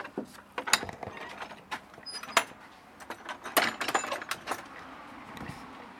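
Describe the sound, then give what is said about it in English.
A back garden gate being opened: a faint run of irregular clicks, rattles and knocks of latch and wood over a few seconds, with no talk. “Now I'm afraid you're going to have to come with me. Open my back gate and away we go.”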